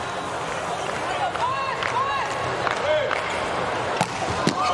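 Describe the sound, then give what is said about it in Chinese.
A hard volleyball serve struck for an ace at nearly 130 km/h in a USA–Japan match cracks out as a couple of sharp slaps over a constant roar of crowd noise. “哇，这个球发出来了，哈内斯发球直接得分，快到130了，这个发球的时速。”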